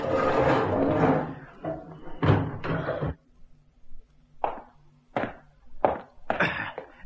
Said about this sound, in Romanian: Aceasta este celula regelui Bastille. Da, deschide, comandant.